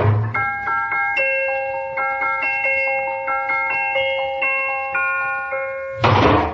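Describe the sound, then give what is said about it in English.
A musical garbage can plays a tinkling tune when its lid is lifted, a steady run of bright, bell-like chime notes at an even pace. A short, noisy burst follows at the end. “Just what I've always wanted, Treacher. A musical garbage can.”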